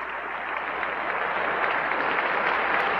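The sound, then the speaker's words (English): An audience applauds before tenor Luciano Pavarotti's recital with a pianist, a steady, moderately loud wash of clapping that swells slightly and holds throughout. “There's some preliminary applause.”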